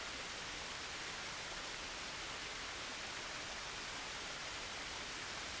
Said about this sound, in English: Open yourself up to the energy of the waterfall.